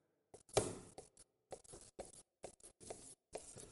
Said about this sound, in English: we're just going to cut them up into some chops. cut them about an inch and a quarter to an inch and a half thick.